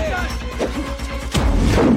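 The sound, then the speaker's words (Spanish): A stun grenade tossed behind a desk during an armed confrontation bursts with a sudden loud crash partway through, after voices and other background sounds. “tras un escritorio y les lanza una granada aturdidora”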